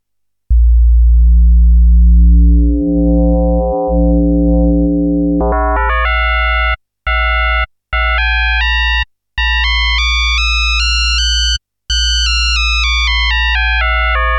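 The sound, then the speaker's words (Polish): Simple two-operator FM synthesis tone from a Waldorf Iridium keyboard synthesizer, one oscillator modulating another: a loud, sustained low drone gives way to a brighter, higher harmonic tone, broken by a few brief silent gaps. “Widzimy, że jeden moduluje kolejny, podłączony do wyjścia, podobnie jak pozostałe kernele, które teraz wyłączymy. Mamy więc prostą zależność modulacyjną FM.”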